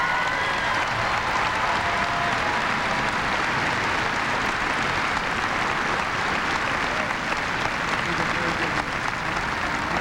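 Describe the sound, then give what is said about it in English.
Sustained audience applause at a presidential speaking event: a dense, steady wash of clapping that stays loud and even for the whole stretch without any break. “Give them a big hand, will you?”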